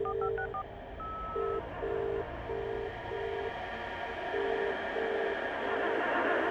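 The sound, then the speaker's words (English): Touch-tone telephone dialling: a quick run of short beeps at differing pitches, then a long series of evenly spaced identical beeps. They sit over a constant low rumbling hiss, with no talking. “The number you have dialed has not been recognized. Please check and try again.”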